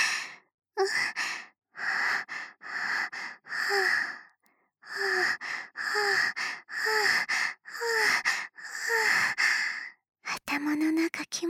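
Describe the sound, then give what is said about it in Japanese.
Many heavy, voiced breaths and sighs in a steady rhythm, each a short breathy exhale separated by brief pauses, with a quicker run of breaths near the end. “ほら、息遣いも聞こえるでしょ。”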